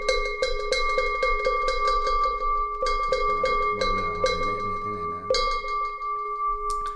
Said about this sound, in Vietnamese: Bắt đầu đến đoạn này chúng ta hồi ba hồi chuông.